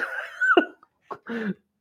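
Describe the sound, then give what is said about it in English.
A man blowing his nose in a few honking bursts, a longer voiced blast followed by two shorter snorts, loud with no talk over it. “Oh no, he's blowing his nose.”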